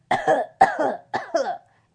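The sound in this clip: A voice imitates the harsh cough of a sick bus worker: four short, rasping coughs in quick succession with brief gaps between them, loud and alone with no talk.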